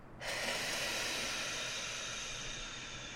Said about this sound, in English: So I ask her to then take a big breath in and puff it out.